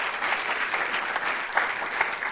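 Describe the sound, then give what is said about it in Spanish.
Congregation applause during a church sermon: dense, steady clapping from many hands that fills the whole moment evenly, with a few sharper claps standing out and no voices over it. “Denle un aplauso al Señor por eso. Gloria a Dios.”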